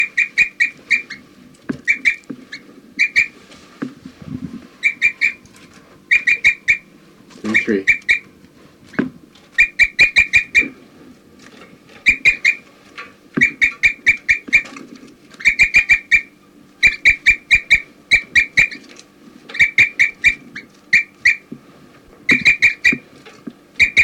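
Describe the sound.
A bird gives high, sharp chirps and flight calls in rapid clustered bursts that repeat through the whole clip, over faint low rustling and a few soft thumps.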